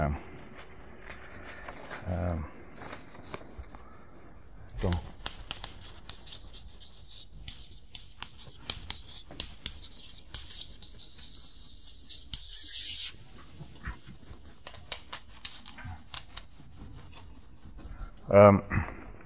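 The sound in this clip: Scratchy writing strokes as a mathematical proof is written out, a long series of short rasping and rubbing marks with brief pauses between them and a sharper knock near the end.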